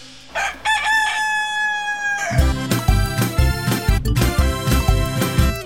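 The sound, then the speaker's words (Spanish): A rooster crows once, a sustained bright call, in a children's song about a rooster and a hen, before lively band music with a steady beat kicks in. “Oigámosla nuevamente, a ver si el gallo cantó.”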